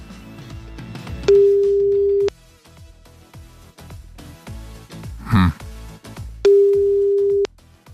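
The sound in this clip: An outgoing phone call rings out with two steady, one-second ringback tones spaced several seconds apart. Faint voices and low rustling fill the quieter gaps between the tones.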